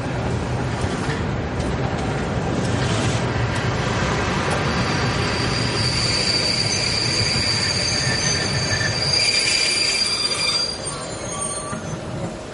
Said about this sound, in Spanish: Amos y su esposa caminan por el andén de una estación. Un tren se detiene.